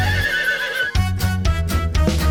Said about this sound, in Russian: Отгадай скорей загадку, кто же там стоит? Лошадка!